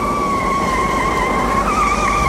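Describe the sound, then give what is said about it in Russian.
Siren of a police car chasing a driverless ambulance that is following a tram, a steady high wail with a slight waver over a dense rush of engine and road noise. “Скорая без водителя послушно едет за трамваем. Ее догоняет милицейская машина.”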